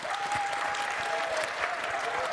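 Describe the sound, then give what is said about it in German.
Audience applause for quiz contestants keeps a dense, even patter of many hands clapping throughout, with no breaks and a faint sustained tone in the background. “Applaus für die Kandidatinnen und Kandidaten.”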